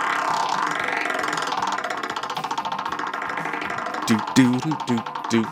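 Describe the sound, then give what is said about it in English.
A prize wheel given a hearty spin rattles out a rapid, even stream of ticking clicks for several seconds, then voices start talking over its last few clicks. “go ahead and give another hearty spin to the Wheel of Topics.”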